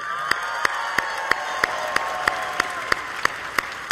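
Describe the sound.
A church audience applauds and cheers to welcome its East Campus: a steady roar of crowd noise, punctuated by sharp, evenly spaced beats about three times per second throughout.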